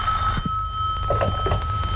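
A telephone ringing before a call in a film scene, heard as a bright, steady electronic tone that holds unbroken throughout, with a few faint low sounds beneath it.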